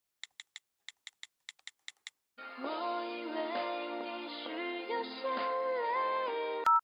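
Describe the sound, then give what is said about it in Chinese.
A phone call being placed: a quick run of short, bright keypad beeps, then a pause, then a steady melodic ringtone tune playing loudly for several seconds before cutting off. “我现在就给他打电话，”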